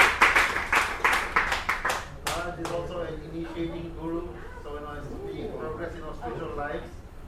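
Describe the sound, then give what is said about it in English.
An audience applauds a guest with a brisk burst of clapping lasting about two seconds, which fades as people begin talking. “Let's all give Maharaj a round of applause.”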